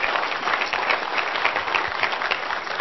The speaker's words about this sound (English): Give a big round of applause.